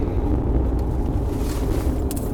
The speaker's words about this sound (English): The nice thing is, though, the forest kind of blocks the wind. So I can still hear it.